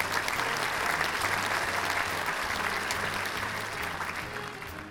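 An audience applauds to welcome a guest onto a stage with steady, dense clapping that holds evenly and then eases slightly toward the end.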